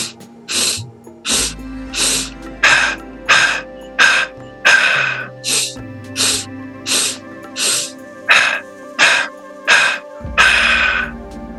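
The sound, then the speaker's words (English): Breathing in and out as a breathwork exercise is demonstrated: many short, airy breath sounds in a steady, even rhythm, with soft sustained low tones underneath. “And maybe you're ready to move it up to three breaths in, three breaths out, or even four. Here's what that would sound like.”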